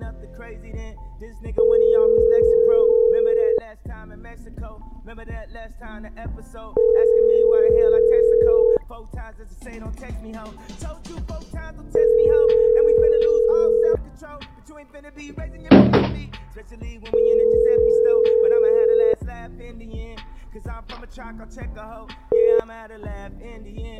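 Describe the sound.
Ringback tone of a call placed to a cell phone: four steady rings of about two seconds each, separated by pauses. A short thump falls between the third and fourth rings, and another ring begins at the end.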